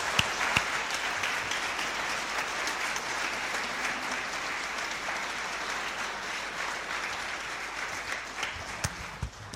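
Audience applause for a jazz band's members at a live concert: a steady wash of many hands clapping that holds at an even level throughout.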